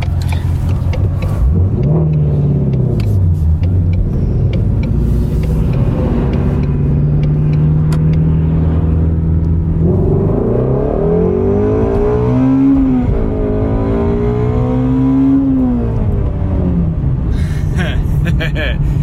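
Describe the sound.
Engine of a 2020 Ford Mustang Shelby GT350 with a flat-plane crank, revving to 8,250 RPM while being driven: a loud, continuous growl whose pitch climbs, drops back and climbs again through repeated surges.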